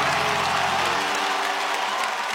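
Crowd clapping breaks out at a call to clap hands, a dense and continuous wash of hands. A low steady tone sits beneath it in the first second and then fades away.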